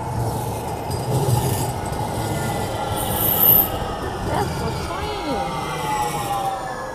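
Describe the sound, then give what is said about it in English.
Train passing with a steady rumble and a high, sustained squeal of wheels on rails throughout, swelling slightly toward the middle. “And there goes my train.”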